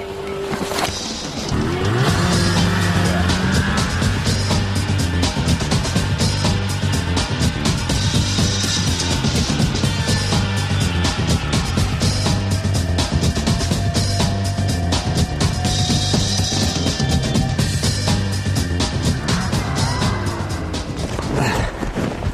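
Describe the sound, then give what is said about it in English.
Scrappy snowmobiles driving on snow and ice, their engines giving a loud, continuous buzzing roar whose pitch rises and falls as they rev, with no talk throughout. “It's a wonderland of snow and ice, and it's the perfect setting for testing out our scrappy snowmobiles.”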